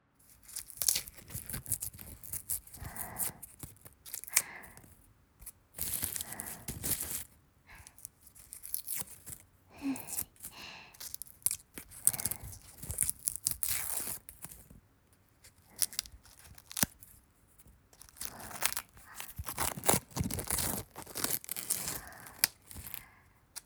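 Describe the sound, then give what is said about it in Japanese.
An onion being finely chopped with a knife: many crisp, crunchy cuts in irregular bursts, some rapid and some spaced, with no talk. “でも私、玉ねぎちょっと苦手だから、みじん切りにするの。”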